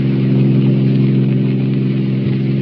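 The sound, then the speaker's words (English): A taxi's engine races through the streets as a loud, steady drone with a constant low hum that holds level for the whole short stretch. “We join them in the taxi as it races to the apartment house.”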